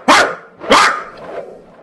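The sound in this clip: A voice imitates a frightened dog with crippled back legs barking: two loud, sharp barks spaced apart, followed by a softer, trailing sound.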